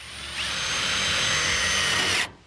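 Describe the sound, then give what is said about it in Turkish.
A power drill drives a screw into a locally cut cedar board framing a barn greenhouse, one steady high whir lasting about two seconds before stopping abruptly. “Spik levhayı buraya yerleştirelim. Buraya bir vida takalım.”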